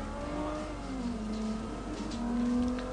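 Car engine revving under acceleration in the Forza 3 racing video game, a sustained mid-pitched engine drone with a whining harmonic layer, holding at a fairly steady level throughout with no talk over it.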